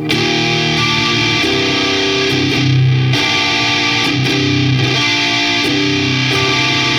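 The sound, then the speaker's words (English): Electric guitar played through a JHS Muffuletta fuzz pedal set to its Civil War mode gives a thick, buzzy distorted tone, with sustained chords and shifting notes ringing at a steady, loud level throughout. “This is just the Civil War from JHS Muffaletta.”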